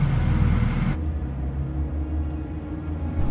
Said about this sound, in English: Now glimpses show James's SUV traveling through the city.